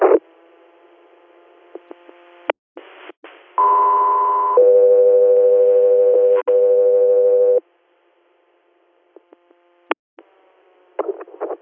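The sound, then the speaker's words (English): Two-tone dispatch radio alert for a Code 3 medical facility transport: a steady higher tone holds about a second, then a lower tone sustains for roughly three seconds, framed by short radio clicks and bursts of static. “Code 3 here, stand by for tones.”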